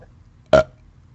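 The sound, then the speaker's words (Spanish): A person lets out a single short, loud, throaty burp after shouting, standing out sharply against near silence. “Es más, gritar me dio ganas de eructar.”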